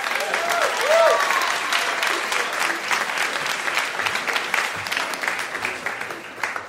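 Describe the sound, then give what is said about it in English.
Audience applause welcoming a guest: dense, loud clapping that peaks early, with a few whoops near the start, then gradually thins and softens over several seconds. “Would you please give a warm hand to Mike Massimino?”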